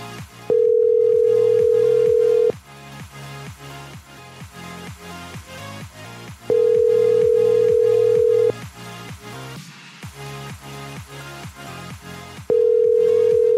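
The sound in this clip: Ringback tone on a telephone line after hanging up on a call and dialing back: three steady two-second tones about six seconds apart over a busy rhythmic background.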